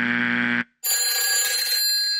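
A telephone rings loudly with a bright electronic tone in two bursts separated by a brief gap, the second burst longer and shriller, with no talk.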